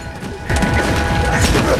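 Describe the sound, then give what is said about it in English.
An axe smashes through French doors and obliterates furniture in a violent rampage. Dense, heavy crashing and thudding builds after a quieter start, then stays loud and chaotic to the end. “Pluto smashes in through the French doors, wielding an axe. He swings and thrashes, obliterating the furniture as Doug tries to dodge the blows.”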